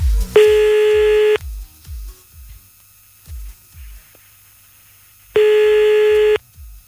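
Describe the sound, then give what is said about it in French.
Telephone ringback tone on a call back: two long, steady mid-pitched tones about a second each, separated by a pause of several seconds, with soft low thumps and clicks in between. “Bon, attends, on va le rappeler.”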